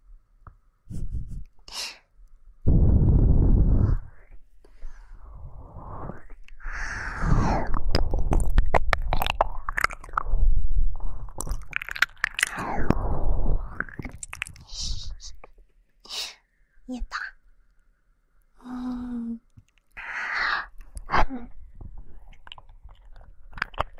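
Close, wet chewing and biting of food, with crunchy bites, smacking mouth sounds and occasional breaths. Loudness rises and falls in uneven bursts, with brief quiet gaps between mouthfuls.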